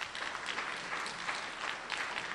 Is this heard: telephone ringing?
no